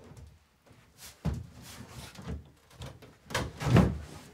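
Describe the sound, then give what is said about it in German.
Bumps and scrapes of a wardrobe being tipped forward during cleaning work: several irregular wooden knocks and rubbing sounds of varying loudness, fairly quiet, growing louder toward the end. “Wir müssen mal den Schrank ankippen. Von hinten oder was? Ja, so ein bisschen nach vorne, ja.”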